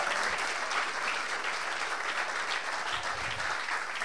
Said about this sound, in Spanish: Dale el aplauso grande a Dios en esta mañana.